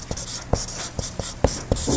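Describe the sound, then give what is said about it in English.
Handwriting with a pen on paper as something is written down. Many short, scratchy strokes and taps come in an uneven rhythm, alone and without talk. “And the only reason I'm writing it down in case... And look, I don't know if you can read my scribble at this point.”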